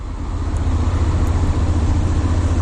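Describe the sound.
Low engine drone of an X-ADV motor scooter being ridden, a steady rumbling hum with constant road and wind noise and no pauses.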